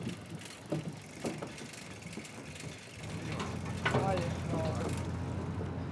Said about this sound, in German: Dies hier ist die einzige Fähre weit und breit. Dreimal am Tag legt sie ab, wird von den Gemeinden bezahlt.